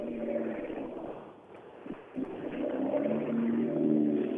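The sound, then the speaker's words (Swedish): A 240 Turbo car arrives at a rally with a low engine rumble that dips briefly, then swells steadily louder toward the end. “Oj, titta här kommer en riktig sån här 240 turbo.”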